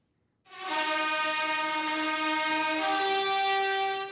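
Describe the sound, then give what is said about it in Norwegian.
Trumpet fanfare greets the American presidential couple as they arrive at a dinner in their honour in New Delhi. A loud, sustained brassy chord rings out, with one shift in the held notes partway through. “Ledsaget av trompetfanfare ankom det amerikanske presidentparet middagen til deres ære i Indias hovedstad New Delhi i går.”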